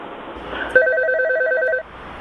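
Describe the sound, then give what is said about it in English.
A mobile phone rings with a short electronic ringtone: a rapid, repeating pattern of bright beeping notes alternating between two pitches, lasting about a second before cutting off abruptly. “Am I allowed to like answer my phone?”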